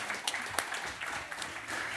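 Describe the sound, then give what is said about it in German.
Faint audience applause for a contest winner who has just received a video-game prize, a soft, continuous patter of many hands clapping with a few sharper claps standing out near the start. “Ja, einen großen Applaus für Nicole.”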